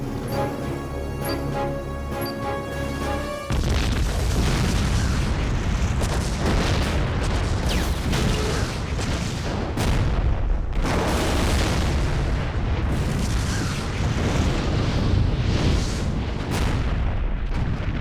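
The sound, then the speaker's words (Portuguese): A planted bomb under an ammunition depot stocked with gasoline explodes in an animated dub. Brief tonal music gives way to a sudden massive blast whose loud, roaring rumble sustains without letup for the remaining fourteen seconds or so. “Eu programei um explosivo. Onde? Embaixo de nós. No depósito de munição. Gasolina.”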